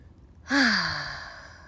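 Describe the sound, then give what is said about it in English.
A single deep breath at the close of a meditation ceremony, released as a voiced sigh whose tone glides downward and fades slowly after a sudden start. “Taking a nice deep breath to close out our ceremony here”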